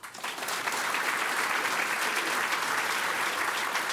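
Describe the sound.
Applause from an audience greets a 14-year-old cellist at a music performance. It swells quickly at the start and then holds as a thick, even wash of clapping to the end.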